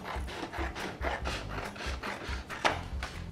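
Paper being trimmed along the top of a printed paper template, heard as many quick, dry rasping and snipping strokes in a steady, even rhythm at moderate loudness, with no voices.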